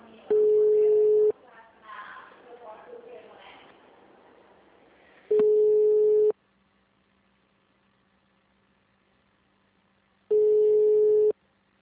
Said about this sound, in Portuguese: Após o sinal, digite o ramal desejado ou aguarde.